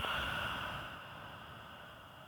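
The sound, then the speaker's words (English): A slow exhale after a held breath in a guided breathing exercise: a soft, steady airy hiss that eases off partway through and stays quiet to the end, with no talk. “breathe in, breathe in. And hold it, hold it, hold it. And breathe out.”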